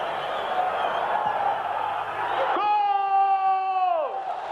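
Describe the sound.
Stadium crowd noise from the 1976 European Championship, as Panenka's penalty goes in, a dense roar for a few seconds before a long, sustained shouted voice rises over it and tails off with falling pitch.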